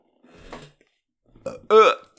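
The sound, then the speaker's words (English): A person burping, a few throaty, gurgling belches: two softer ones first, then a louder, clearly voiced burp near the end. “It's not just burps, there's something else in there.”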